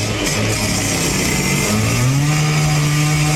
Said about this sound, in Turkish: Demir itfaiyenin yardımıyla kesildi.